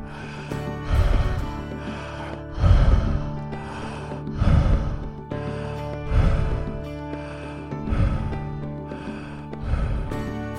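Rapid open-mouth breathing in a guided breathing exercise, six loud, even breaths at a steady pace over a sustained musical drone.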